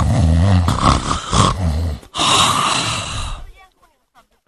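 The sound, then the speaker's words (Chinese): A voice imitates the loud snoring of a drunk man with rough, roaring, groaning breaths, two long rasping stretches split by a brief gap, trailing off into quiet at the end. “可是杨林确实喝多了，这鼾声起来了。”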